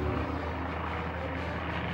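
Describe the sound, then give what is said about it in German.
Steady drone of an airplane in flight as it loses altitude: a continuous, even rumble with broad hiss on top, unbroken for the whole two seconds. “Ein bekannter Druck in der Magengegend sagt mir, dass das Flugzeug an Höhe verliert.”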